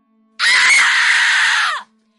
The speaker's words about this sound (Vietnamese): Tôi bịt chặt hai tai lại rồi hét lớn.